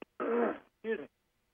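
Someone clears their throat in two bursts: a longer rasping one, then a shorter one after a brief pause, with quiet around them.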